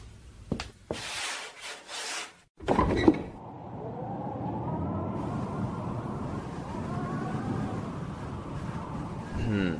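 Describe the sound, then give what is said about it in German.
Windows being opened give off a few knocks and clatters, then a long, sustained scraping slide with faint squeaks. “Wilkins, öffnen Sie die Fenster. Sie wissen doch, dass ich den Aufenthalt in geschlossenen Räumen nicht ertrage.”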